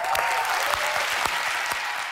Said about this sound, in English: It's really awkward because there's nobody in the studio audience. Yeah, who's clapping? Well, they had like a virtual studio audience. They had big screens, basically, and each screen was a person.